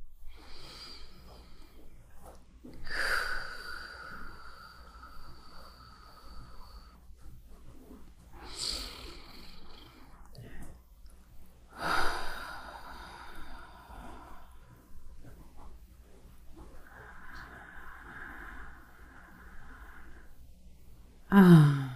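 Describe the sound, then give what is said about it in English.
Slow, deep breathing during a guided relaxation: several long, soft, airy inhales and exhales separated by quiet pauses, gentle and unhurried with no talk. “Take a moment and take some deep breaths with me.”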